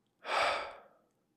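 A single audible outbreath: one soft, breathy exhale that swells quickly, then fades out slowly over about a second, heard alone without talk.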